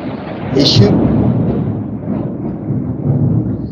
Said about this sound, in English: there's thunder coming. Oh, wow. It's raining, so.